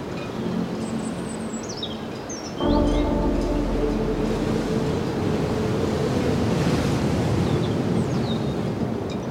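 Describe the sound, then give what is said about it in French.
Ocean swell and waves make a broad, steady roar of surf that turns suddenly louder early on and then holds at a full, rushing level. “la houle, les vagues.”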